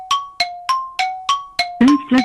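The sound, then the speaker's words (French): Gong sounding in a French word-guessing quiz game: six evenly spaced bright metallic strikes, then two louder, deeper-toned hits close together, with no talking. “Et le gong a retenti.”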